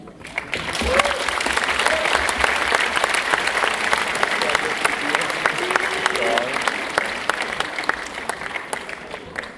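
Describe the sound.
An audience at a general assembly applauds in a dense, steady wash of clapping that runs loud and unbroken throughout, with a few faint voices under it.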